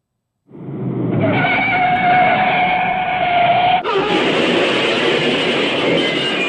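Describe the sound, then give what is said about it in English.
A generic stock car crash sound effect: a long, loud screech-like rush with whining tones, broken by an abrupt jolt that gives way to a brighter, harsher roar lasting to the end. “All right, here, we'll play the crash. We have it isolated here.”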